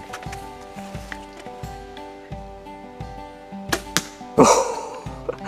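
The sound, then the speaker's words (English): An arrow is shot at a carrot target, with one sharp burst near the end over a steady humming background and a few lighter knocks before it. “I'm going to step it up a notch and shoot the carrot.”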